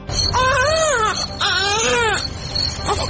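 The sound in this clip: A small boy cries in loud, drawn-out wails, two long arching cries that rise and fall in pitch, followed by a quieter whimpering tail with no talk over it.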